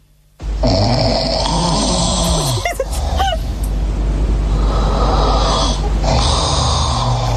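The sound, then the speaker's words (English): A man snoring loudly, a long continuous rattling rasp broken by a few throaty snorts, heavy and rough throughout. “Whose snore is worse? You can vote now, have your say.”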